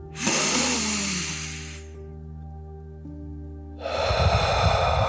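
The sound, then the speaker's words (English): A deep breath drawn in as a long, loud, airy inhale, then a quiet pause and a rushing exhale, over a steady tonal drone. “First, I want you to take a big, deep breath with me.”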